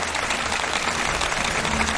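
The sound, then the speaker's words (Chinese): Steady, dense audience applause for a percussion teacher after a demonstration at a music performance, a continuous even wash of clapping with no clear gaps or talk. “我们再次把掌声献给我们的蒲老师，谢谢您。”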